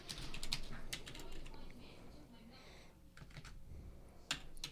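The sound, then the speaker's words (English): Typing on a computer keyboard: many quick, irregular key clicks at a low level, with a few sharper taps standing out from the steady clatter. “You don't have to type every word I'm saying”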